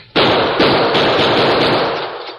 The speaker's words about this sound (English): I'm going to try some bullets on that staple. Move back as far as you can.